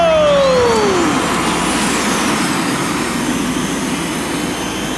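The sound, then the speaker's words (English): Futuristic hover-drive racing bikes launch at the start of a race with a loud, jet-like roar. Whines sweep downward in pitch early on, and a steady high whine continues through the whole clip. “Then I guess the only thing left to say is, racers, engage your hover drives! In 3, 2, 1, go!”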